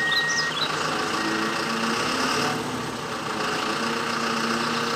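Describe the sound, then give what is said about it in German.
Steady low rumble of a tow truck's engine idling while the towing crew works, a continuous even drone with no clear rhythm and no voices, holding at a fairly constant loudness throughout. “damit der Abschleppdienst hier in Ruhe arbeiten kann. Wir schauen uns das alles gemeinsam aus sicherer Entfernung an.”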